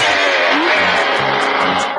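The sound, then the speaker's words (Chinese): A car engine sound effect from an animated cartoon: the engine struggles to catch, then runs. The noise is loud, rough and continuous, holding steady across the whole stretch without clear separate bursts. “咪开车啦，快啲。哎呀，架车差唔上火啊。”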